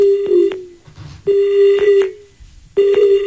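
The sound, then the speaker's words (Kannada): A dropped caller's line on a farming radio phone-in produces three electronic telephone tone bursts, each a steady, loud beep with a short tail, separated by brief quiet gaps. “Sir, ಈ ಕರೆ ಕಡಿತ ಆಯ್ತು sir.”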